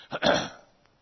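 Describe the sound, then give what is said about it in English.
A person clears their throat with two quick, rough rasping bursts. The second is louder and longer, then the sound fades into near silence. “Excuse me, I got a little catch in my throat here.”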